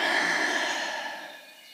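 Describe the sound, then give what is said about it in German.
A deep breath exhaled through an open mouth during a guided exercise warm-up: a single long, airy whoosh that starts strong and gradually fades. “Atme hier mal tief durch die Nase ein und durch den geöffneten Mund aus.”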